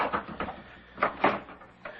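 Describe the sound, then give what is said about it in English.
A house door is opened, giving a few muffled wooden clunks and a soft latch rattle spread unevenly over a couple of seconds, fairly quiet. “Would you open the door, please?”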